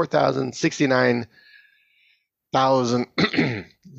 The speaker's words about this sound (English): Sorry, I have some phlegm or something in my throat.